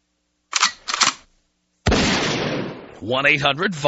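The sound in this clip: A double gunshot sound effect: two sharp bangs in quick succession, then a louder, noisy blast that slowly decays, followed by a man speaking.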